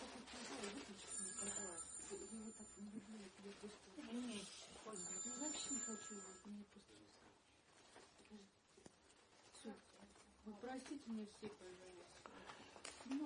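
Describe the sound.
Mobile phone ringtone going off in a church during a sermon, high, repeating electronic ring bursts heard faintly beneath a voice that keeps speaking throughout.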